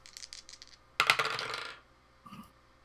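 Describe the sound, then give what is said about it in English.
Dice rolled onto a table during a tabletop wargame: a light rattle of dice being shaken, then a sharp burst of tumbling clicks that fades over about a second, followed by one soft knock. “I'm not sure I like those dice. Let's try these dice.”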